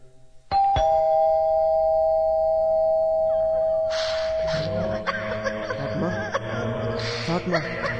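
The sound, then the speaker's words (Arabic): A doorbell at a house door gives a two-note ding-dong chime: two quick strikes, then a clear tone that rings out for several seconds. Overlapping voices and busier sounds follow. “ندق الجرس.”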